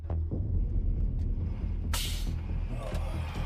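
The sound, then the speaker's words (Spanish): A truck hauling a boat blows out a third tire with a sudden sharp burst and a rushing hiss that tails off over the steady low engine rumble. “Acaba de reventar un 3er neumático, lo nunca visto.”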